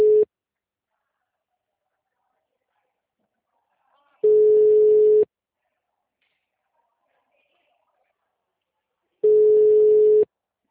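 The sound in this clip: Telephone ringback tone of an outgoing call: steady, mid-pitched tones about a second long, repeating after roughly four seconds of silence, with a cut-off tone at the start and two full tones after it.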